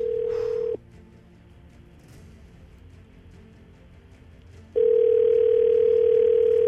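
Ringback tone of an outgoing telephone call. A steady, single-pitched electronic tone stops after under a second, then a long quiet gap follows, and the tone returns and holds loudly to the end.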